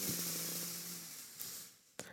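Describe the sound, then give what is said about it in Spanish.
A slow, deep inhale through the nose during a yoga breathing exercise for drivers, a faint, airy hiss that gradually tapers off, followed by a couple of soft, brief clicks. “Y una última, inhalo profundo por la nariz.”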